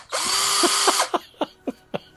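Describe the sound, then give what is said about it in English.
A power drill whirs steadily for about a second, then gives four short, evenly spaced bursts. “think about power drills, and just to help you out.”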